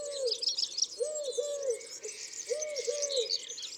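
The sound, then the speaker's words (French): A Eurasian collared dove coos in soft, low, repeated rounded notes grouped in short phrases, while other birds chirp and sing higher and busier around it. “le chant du rouge-queue-noir, celui de la tourterelle turque,”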